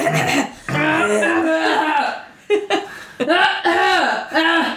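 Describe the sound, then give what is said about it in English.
A voice imitates the drawn-out throat clearing of Grand Maester Pycelle, an old court maester, with raspy, gurgling voiced rumbles in a few bursts. Short gaps separate the bursts, and chuckling tones run through them. “Grand Maester Pycelle clears his throat, a process that seems to take some minutes.”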